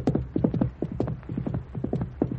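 Horse hooves clip-clop in a quick, steady rhythm of many sharp knocks as riders set off on horseback.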